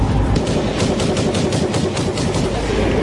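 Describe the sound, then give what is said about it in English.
AR-15 rifle gunfire: a fast, unbroken volley of many sharp, loud shots, heard alone without any talk. “I got my fucking AR-15. Listen to my gun.”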